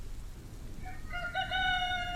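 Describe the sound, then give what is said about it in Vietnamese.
A frightened hen squawks: a quiet moment, then a burst of high, harmonic cries that grow louder and denser toward the end, over a steady low background rumble. “Tiếng con gà mái kêu lên đầy kinh hãi, làm cho lão Lanh giật mình.”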